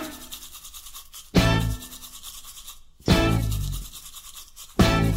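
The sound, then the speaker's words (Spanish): Brushing with a toothbrush: three loud scrubbing bursts, each starting sharply and fading, with softer bristle rubbing in between. “Oh, mira qué brillo cuando saco mi cepillo a pasear. Cuando saco mi cepillo a pasear. ¿Y cómo suena?”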